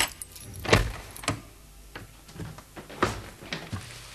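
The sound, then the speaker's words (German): Keys jangle and click as a studio door is unlocked: a series of sharp metallic rattles and knocks spaced irregularly, a few standing out louder than the rest. “Ich muss nur eben aufschließen.”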